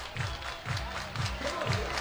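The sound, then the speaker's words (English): A baseball team cheering in the dugout during a game, picked up faintly by a crowd microphone: a low wash of shouting and chatter over a steady beat of dull thumps about every half second. “The Express dugout is really, they're very happy about this. I think you can hear them on that crowd mic”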